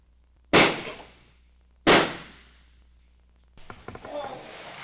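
Gunshots in a police shooting scene from the film Legion: two loud sharp bangs with long decaying tails about a second apart, followed by a softer, rattling clatter.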